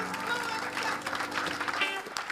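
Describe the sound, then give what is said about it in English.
Applause from an audience at a show at PJ's, a dense steady patter of clapping with crowd noise and voices mixed in, holding at an even level throughout. “Right now, it's showtime at PJ's. How about a great big round of applause?”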